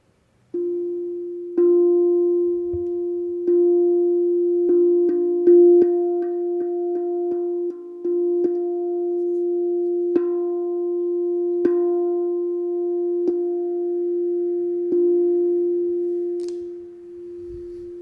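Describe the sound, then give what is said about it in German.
A sustained musical tone on the note F, played for a heart chakra meditation, rings steadily for about eighteen seconds. Faint clicks recur as it holds, and it fades out at the end. “Und ich spiele den Ton F.”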